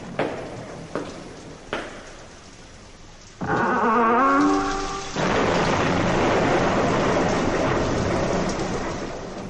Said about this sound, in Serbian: Grmelo i sevalo sa svih strana. Kiša je lila kao iz kabla.